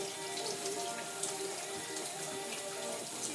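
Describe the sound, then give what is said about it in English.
Small items are washed up in a bowl under a running tap, giving a faint, steady patter and splash of water with no talk. “I've just got to wash the small things up, basically. And clean the bowl out.”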